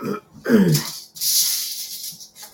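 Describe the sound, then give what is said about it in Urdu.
A man coughing during a recorded Quran commentary lecture: a short throaty grunt followed by a harsh, breathy cough burst that trails off, fairly faint and alone. “کھانسی شروع ہو گئی تو میں ذرا گولی جو ہے وہ منہ میں رکھ لوں.”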